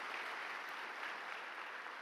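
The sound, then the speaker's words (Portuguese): A church audience claps to welcome visitors during a service. The applause is faint but steady, a dense patter of many hands with no break. “Uma salva de palmas para os nossos visitantes. Vocês são muito bem-vindos.”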